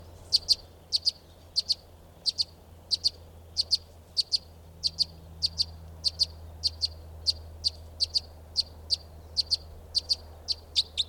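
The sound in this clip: Bird calls from a baby white-wing: many sharp, high-pitched chirps in short pairs and singles, repeating at a steady rhythm over a low, constant hum.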